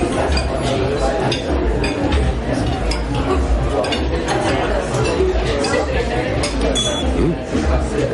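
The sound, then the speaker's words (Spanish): Light glass clinks as wine is poured into a glass for a diner at a hotel table with another couple, scattered through a steady murmur of background chatter and clatter of tableware. “La camarera sirvió una copa de vino a Tomás y todos observan cómo la prueba.”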